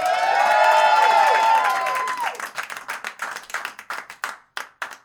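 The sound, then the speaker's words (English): Applause from a stand-up comedy audience: a dense, steady wash of clapping that thins into looser, separate bursts of claps toward the end. “Ladies and gentlemen, put your hands together, make some noise for Joe Good!”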